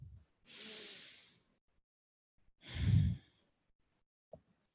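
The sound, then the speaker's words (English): Two long, soft breath sounds, a deep breath taken during a group breathing exercise, the second louder and lower than the first, followed by a faint click after a pause. “With that, take in a deep breath with us.”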